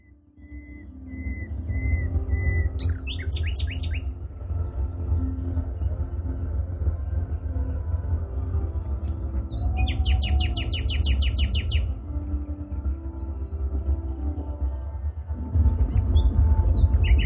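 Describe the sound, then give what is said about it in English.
Nightingale song just after sunset on a late-May evening: a few bursts of rapid, high chirping trills and short whistled notes over steady, low sustained music. “Move your attention between the music and the nightingale.”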